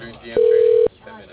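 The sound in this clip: A single telephone ring tone sounds as an office call is transferred. The steady, even tone lasts about half a second, with faint talk around it.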